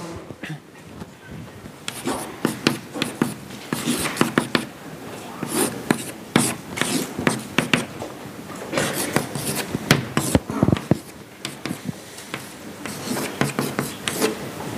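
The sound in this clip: Scratchy, irregular strokes of writing as a derivative equation is written out during a math lesson. The many quick scrapes come in uneven clusters and stay fairly faint throughout.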